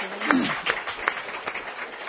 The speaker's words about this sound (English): Just applause for the speaker and the panel.